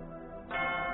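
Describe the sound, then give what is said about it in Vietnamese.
A church bell rings with a fresh strike about halfway through, then a rich, sustained metallic tone with many layered overtones hangs on at moderate volume. “Tiếng chuông như có an ủi, vỗ về, mà cũng như lời buồn nhắc nhở về một thuở bình yên, một thuở an vui đã mất.”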